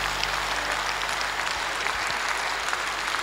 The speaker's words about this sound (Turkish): Alkışlarımız, alkışlarımız abiler.